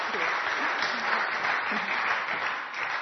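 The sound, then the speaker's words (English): Audience applause welcomes a speaker at a morning church gathering, dense, steady clapping that stays loud and unbroken throughout. “Let's give her a warm welcome.”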